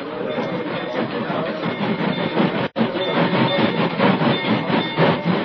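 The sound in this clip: Train crossing a bridge over a canyon, a continuous loud rumble and rattle of rolling rail cars with a brief gap midway.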